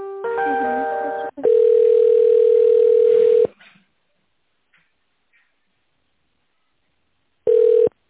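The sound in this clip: A telephone connecting tone while a call is transferred inside a company: a brief harmonic-rich tone, then a steady mid-pitched beep of about two seconds, silence, and one short beep near the end.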